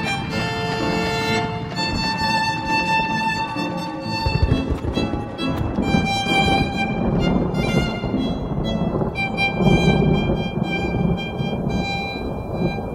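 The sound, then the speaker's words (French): Heavy rain falls on the Whitechapel district, a dense, continuous wash with low rolling thunder underneath, mixed below prominent sustained music throughout. “une pluie grasse tombe sur le quartier de Whitechapel”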